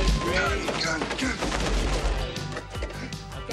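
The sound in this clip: Gunfire from someone shooting, heard as a dense run of sharp bangs and heavier booms that crowd together at the start and thin out, mixed with people talking.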